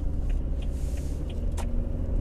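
Steady low road rumble of a car driving along a road, a dense continuous drone at an even loudness throughout, with a few faint soft ticks above it and no voices.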